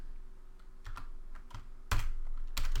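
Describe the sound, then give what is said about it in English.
Typing on a computer keyboard while parameter names are entered: a few irregular, crisp key clacks, scattered and moderately quiet, with no voices. “And first I'm just going to type these in and then we'll talk about them.”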